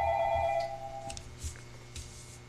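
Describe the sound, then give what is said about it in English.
A telephone rings for an incoming call to a radio call-in show: a brief, steady electronic ringing tone cuts off after about a second, followed by a few faint clicks. “Okay, we got a call on the line. Go ahead, caller.”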